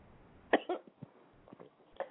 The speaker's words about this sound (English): I've got a tickle in my throat.